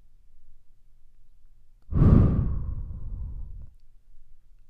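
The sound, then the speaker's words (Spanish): A single deep breath rushes out as a long, breathy sigh. It starts abruptly, is loud at first, then fades over about a second and a half in otherwise near silence. “a la cuenta de tres respires conmigo. Uno, vas a inhalar. Dos, vas a sostener un momento. Y tres, vas a exhalar.”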